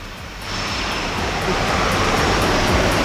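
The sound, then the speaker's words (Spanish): Jet aircraft engines roar as a plane takes off from Tenerife North airport at Los Rodeos. A loud, broad, hissing roar grows stronger in steps and stays sustained throughout. “Está despegando en este instante de este aeropuerto histórico de los Rodeos, Tenerife Norte, el avión del Papa ya con destino Roma.”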